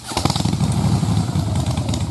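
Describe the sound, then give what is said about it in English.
Harley-Davidson Pan America motorcycle engine revving, a loud, thick, throbbing rumble that holds steady and rough for a brief moment. “Who needs a rev up? For Harley Heaven. The Harley Davidson Pan America is coming to Harley Heaven in Melbourne, Dandenong and Ringwood.”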